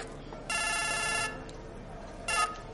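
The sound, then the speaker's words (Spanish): A mobile phone message alert sounds in a room overlooking a busy square in Venice: a bright, steady electronic tone rings for under a second, then a shorter, sharper tone follows after a pause. “Se acerca al móvil para leer el mensaje.”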